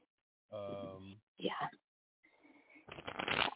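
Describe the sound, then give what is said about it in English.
A deck of cards is shuffled before a reading for questions about career and love. After a few brief voiced sounds comes a short, rustling riffle. “I want to pull a couple cards for career. I want to pull a couple cards for love life.”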